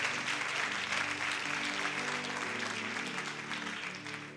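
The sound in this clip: An audience applauds at a church service with dense, steady clapping that stays even throughout and eases slightly toward the end.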